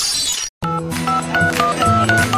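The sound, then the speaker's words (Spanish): Telephone keypad dialing tones, for Mexico's new dialing system: a brief gap, then a rapid run of many short, bright beeps at shifting pitches in quick succession. “Oye, Gaby, ¿tú sabes cómo va a funcionar la nueva marcación telefónica?”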